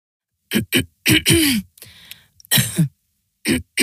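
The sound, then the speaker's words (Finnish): A person with a dry cough coughs harshly in uneven clusters of loud, rasping bursts, with a quieter breathy stretch and a pause between groups. “älä suotta köhi”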